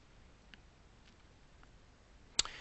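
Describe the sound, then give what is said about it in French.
A single crisp mouse click on the Time Machine icon in a computer dock snaps out near the end, preceded by a few very faint ticks over quiet background hiss. “Et là maintenant je vais cliquer donc sur l'icône Time Machine qui se situe dans le doc.”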